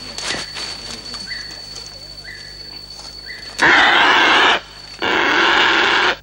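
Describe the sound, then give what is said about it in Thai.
Bird being freed from a mist net: a few short, faint chirps come first, then two loud bursts of rustling, each about a second long. “การนำตัวนกออกจากตาข่ายต้องรีบทำด้วยความรวดเร็วเพื่อไม่ให้นกตื่นตกใจก่อนที่จะนำวิทยุมาติด”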